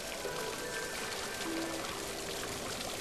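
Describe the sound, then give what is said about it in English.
A curtain of falling water pours in a continuous rushing wash, with steady splashing and trickling that stays even throughout and no voices. “you walk naked down the steps under a curtain of falling water.”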